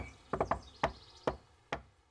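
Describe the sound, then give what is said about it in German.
Rhythmic knocking on a villa's door: three quick knocks, then three more spaced evenly apart. The knocks are crisp and fairly loud, with no voices. “Villa Kunterbunt und klopfte an, sie klopfte den schönsten Rhythmus, den man nur klopfen kann.”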